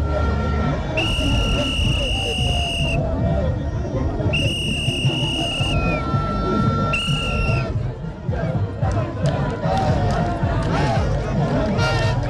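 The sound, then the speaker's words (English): Excited crowd of National Democratic Congress supporters celebrating at the Assin North by-election, a loud, continuous babble of voices cut by three held, high whistle blasts. “you can tell from the sounds you are hearing at the background. People are obviously excited, but the excitement seems to come from the side of the National”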